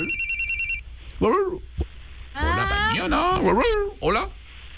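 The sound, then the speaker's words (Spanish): A telephone rings with an incoming call in a quick trill of rapid electronic pulses lasting under a second, followed by people talking. “Hay otra llamada. Una llamada más, a ver.”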